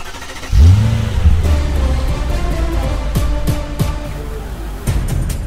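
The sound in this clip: A car engine roars and revs, its pitch surging up and back down in a few bursts over a steady, deep rumble that runs through the whole clip.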